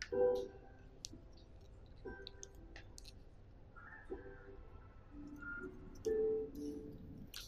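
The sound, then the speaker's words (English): Faint plastic clicks and small crackles sound as the lid of a prepackaged communion cup is peeled back, with soft squishy ticks scattered across the quiet stretch. “This is a convenient communion cup of sorts, and I would ask you to peel back this. I would ask you to peel back the first part.”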